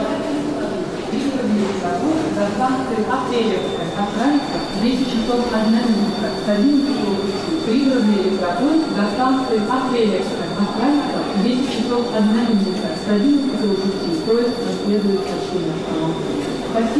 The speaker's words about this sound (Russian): Электрички до Апрелевки, да, это Киевский вокзал.